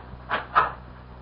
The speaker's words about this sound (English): First, I want you to open the back door to this house and tell me what you see. Okay. You coming with me? No, I'll stay here. Well, what am I supposed to see? Just open the door.